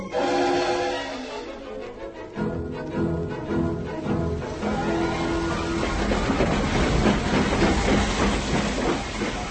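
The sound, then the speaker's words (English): A passenger train pulls into a station with a loud, continuous rumble, clatter and hissing that thicken into dense clicking wheel noise. “She's pulling in right on time, 7:15. Will Miss Morgan be in a first or second class carriage?”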